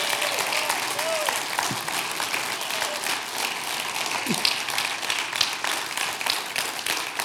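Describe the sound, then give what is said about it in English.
Applause from a church audience welcoming a preacher to the front on a Sunday morning: dense, steady clapping of many hands that holds at an even loudness for about seven seconds. “would you please put your hands together and welcome Joey to come preach the word this morning”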